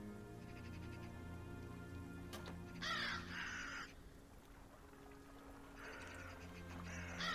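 A raven caws in two harsh, rasping bursts, separated by a few seconds, over a constant soft, noisy background.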